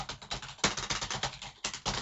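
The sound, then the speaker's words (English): Quiet typing on a computer keyboard: a rapid, continuous stream of many small key clicks with slight bursts and pauses in rhythm. “Okay, this is me typing.”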